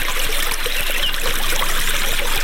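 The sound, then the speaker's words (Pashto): Water trickling and rushing as an autumn orchard is irrigated in a village south of Ghazni city, a steady, dense, continuous flow with no breaks. “په دغه باغ کې په اوبو لګولو بوختای”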